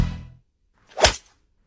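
A golf club strikes a ball once, a quick swishing thwack that swells and dies away within a fraction of a second, following a short fading tone.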